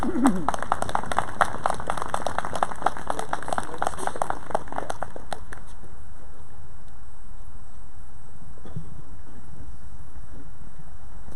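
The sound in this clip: Audience applause welcoming a guest speaker to a human genetics lecture: dense, steady clapping for about five seconds that then cuts away to near quiet.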